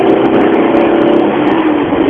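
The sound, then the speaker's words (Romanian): Loud car engine roar as a car launches from a standstill in second gear, a dense, steady strain that holds for about two seconds without easing, with no voices. “Fă o pornire dintre a doua. Dintre a doua? Cu a doua, bă, ești nebun? Cu a doua, merg.”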